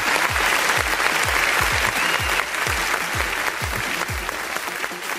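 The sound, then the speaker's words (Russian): Applause in a radio studio: a dense, continuous patter of many hands clapping, steady and fairly loud throughout, easing only slightly toward the end. “Ребята, парни, ну что ж, аплодисменты в студии.”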